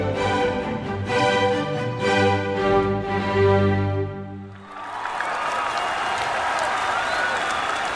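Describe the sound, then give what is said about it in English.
A park audience bursts into cheers and applause as a rock band and orchestra finish playing. Sustained musical chords ring out first, then give way to a dense, steady roar of clapping and crowd noise. “a crescendo of cheers, chants, and applause resounded across the park”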